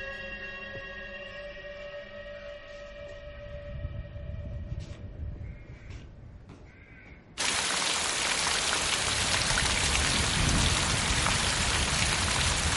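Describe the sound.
Heavy rain falling outside a house: a loud, dense, steady hiss that starts abruptly partway through and continues unbroken to the end, after a quieter stretch of faint tonal sounds.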